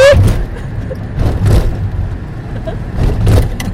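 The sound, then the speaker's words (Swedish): A car driving over speed bumps, a low engine and road rumble throughout with a few brief, broad thumps rising out of it at uneven intervals. “Rakt på här ska du. Fast det är lite farthinder.”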